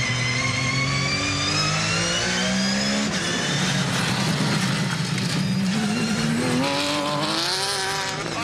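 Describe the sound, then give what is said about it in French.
A Porsche race car engine accelerates hard, its loud continuous roar sweeping upward in pitch through repeated rising revs, with a brief squeal of tires in the mix. “C'est bien de conduire une Porsche. Ça bouge, ça vit, c'est efficace.”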